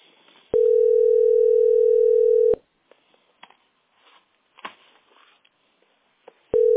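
A phone line rings while a caller waits in a queue for a billing centre specialist: one loud, steady tone of about two seconds, then a quiet gap with faint scattered sounds, and the tone starts again at the end.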